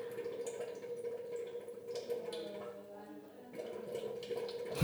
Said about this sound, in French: Un petit récipient plein d'eau au-dessus de la cuve, et puis on voit les petits glouglous qui remontent. Et voilà, et la bière se fait dans la cuve en face de nous.